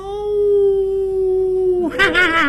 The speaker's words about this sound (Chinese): 不是夜猫叫就是野狼嚎啊